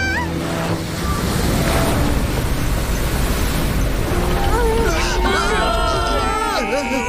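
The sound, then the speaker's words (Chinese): Crashing waves and rushing seawater around a sinking ship, a loud continuous roar throughout, with voices crying out over the surf in the last few seconds. “船要沉了，弃船！”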